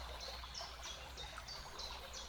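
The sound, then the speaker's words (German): Flowing water makes a soft, steady trickle, with repeated short bird chirps above it throughout. “das Element Wasser zu dir. Du spürst dieses Fließen und hörst es.”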